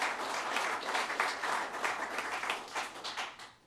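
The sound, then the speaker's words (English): Applause from an audience at a county employee service-award ceremony: a dense, steady clatter of many hands clapping that gradually fades toward the end, with no talk over it. “let's give him some applause”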